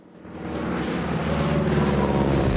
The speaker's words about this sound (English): The plane descends